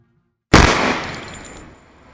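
A single pistol shot: a sudden loud crack out of silence, followed by a long decaying tail that fades over more than a second.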